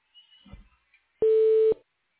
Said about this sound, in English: Please leave your message after the tone. For further options after recording, press the pound key.